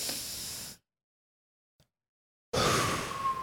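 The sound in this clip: A group of people breathe out loudly together during a sermon: a short burst of breathy, hissing air, a long silence, then a second, louder and longer exhalation from the whole audience.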